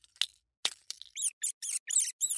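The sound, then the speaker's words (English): Rodent squeaking as it escapes a mousetrap: a few sharp scratchy clicks, then five quick, high-pitched squeaks in a rapid, fairly even rhythm, faint and alone. “This is the sound of a rodent escaping from your mousetraps.”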